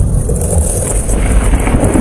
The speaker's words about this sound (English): That's the sound of a Saskatchewan storm system that brought funnel clouds, large hail, and winds strong enough to nearly knock over a grain bin.